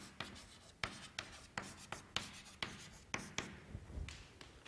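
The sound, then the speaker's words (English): Handwriting on a surface makes faint, dry scratching strokes. Many short strokes follow in an uneven rhythm, each a quick rasp, with no talking. “we can write this down”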